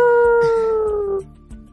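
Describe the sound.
A human voice imitates a wolf howl, giving one sustained tonal cry that slides slowly downward in pitch for just over a second before breaking off.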